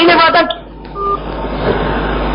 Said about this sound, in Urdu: کال بند کر رہا ہوں, وقت زیادہ.